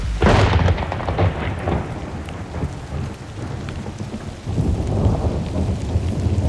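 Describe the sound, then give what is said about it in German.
Thunder rumbles through heavy, steady rain during a thunderstorm, with loud bursts near the start and again past the midpoint over a constant wash of downpour. “Wenn der Regen niederbraust, wenn der Sturm das Feld durchsaust”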